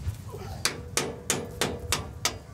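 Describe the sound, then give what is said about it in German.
Sharp metallic hammer knocks as a bolt is driven back into place on a harvester, about seven evenly spaced blows at a steady rhythm, each a crisp bright strike over a low background rumble. “Jetzt müssen wir den Bolzen hier wieder reinpulen”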